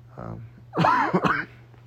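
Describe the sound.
A cough triggered by a tickle in the throat: a faint breathy catch, then a rough, voiced throat-clearing cough, short and moderately loud against a quiet background.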